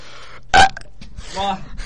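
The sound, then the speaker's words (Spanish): A loud burp is played back. It is a single throaty burst lasting a fraction of a second, and it stands out clearly against quieter background sound. “¿Has traído eructos esta semana? Uno muy grande, que lo voy a reproducir ahora mismo.”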